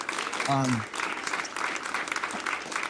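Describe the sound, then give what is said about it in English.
A church audience at Sandals Church applauds Pastor Eric with steady, continuous clapping throughout, and a voice speaks briefly over it near the start. “Last weekend, Pastor Eric did an amazing, amazing job. Let's give him a hand.”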